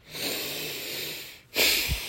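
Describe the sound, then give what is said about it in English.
Heavy breathing from a man who has been drinking alcohol. A long, drawn, wheezy breath comes first, then a sharper, louder breath with a brief snort-like sound near the end, all faint. “My fat ass has to breathe a lot.”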